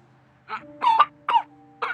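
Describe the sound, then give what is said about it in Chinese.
A man coughs after nearly spitting out a mouthful of water. Four harsh, voiced coughing bursts come in an uneven rhythm over a faint, steady hum. “顾惜池喝的一口水差点喷出来，他咳了好久。”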